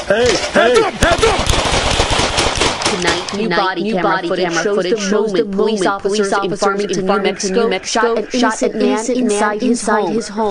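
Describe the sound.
Police gunfire in body camera footage at a home in New Mexico. A rapid, dense burst of many loud shots is followed by voices talking.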